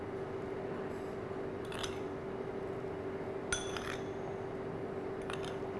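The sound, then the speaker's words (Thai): A spoon scoops sugar, giving a few faint, sparse metallic clinks over a low steady hum. “เดี๋ยวเราต้องใช้ช้อนตักนะครับน้ำตาลทรายนะครับ”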